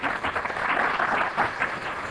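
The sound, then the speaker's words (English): Audience at a church gathering clapping: brief, steady applause with an even texture and moderate loudness, no voices standing out. “Please, you don't need to clap.”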